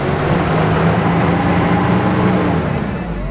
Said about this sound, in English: Halverson gets it started, and the matatu rolls forward.